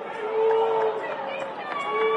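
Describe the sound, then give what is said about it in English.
Crowd booing rises as a sustained, droning roar of many voices, loud and steady for the whole stretch with a few swells and no clear break. “You guys won't, you won't be booing about the Marquee Network in 1 year.”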